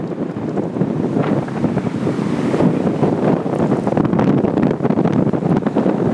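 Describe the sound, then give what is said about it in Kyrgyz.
Mistral, the strong north wind of Provence around Avignon, roars in a loud, steady rush of wind buffeting the microphone throughout, with a deep rumbling low end and hissing upper noise, no voices present. “Франциялык режиссердун киносун көрүп жатканыбызда сыртта мистраль башталды. Түндүктөн соккон бул шамалдын адамды да учуруп кетчүдөй күчү бар экен.”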